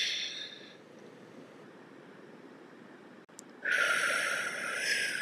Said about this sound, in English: Take a deep breath in and hold for 3 seconds.